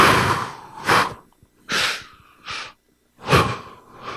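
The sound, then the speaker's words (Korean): Sharp, forceful breathing demonstrates a pattern of two breaths in and two breaths out. A few loud, breathy bursts are separated by brief silent pauses, with no talk. “칙칙푹푹은 뭐예요? 두 번씩 하라요. 두 번 들이쉬고 두 번 내쉬고”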